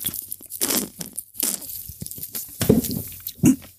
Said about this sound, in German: Nochmal einen Schluck nehmen.